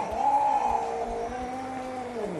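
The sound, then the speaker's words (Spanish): A cat gives one long, drawn-out yowling meow, a continuous wavering tone that sags and rises slightly. It is loud and sustained for over two seconds with no talking. “Luego, si en casa tienes un gato que hace esto,”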